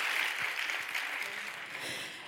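Audience applause, a steady, even crackle of many hands clapping that stays fairly faint and tapers slightly toward the end.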